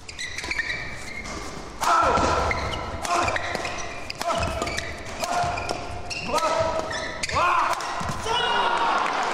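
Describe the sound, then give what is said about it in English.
Badminton rally with rackets striking a shuttlecock: many sharp, irregularly spaced hits and thuds, with brief high squeaks between some of them, moderately loud throughout. “If you haven't guessed the sport, it's badminton.”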